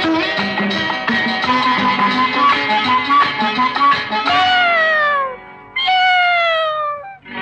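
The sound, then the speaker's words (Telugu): A cat meows over and over in short, clear cries, then lets out two long, drawn-out meows that fall in pitch. “అందాల ఓ పిల్లి అరవకే నా తల్లి”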